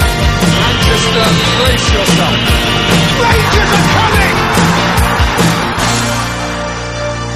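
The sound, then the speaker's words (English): A stadium crowd erupts in a loud, dense roar of cheering, yelling and whooping that holds steady and eases off slightly near the end. “And the stadium erupts in red, white, and blue. You've never seen anything like it.”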